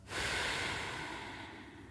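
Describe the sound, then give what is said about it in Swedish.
A deep breath drawn in during a guided eyes-closed exercise, one long, airy inhale that rushes in quickly, holds steady and tapers slightly, heard alone without talk. “Så tar du ett djupt andetag in.”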